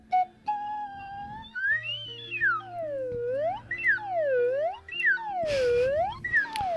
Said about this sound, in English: The more I play the slide whistle, the more I think that I would love to have played trombone.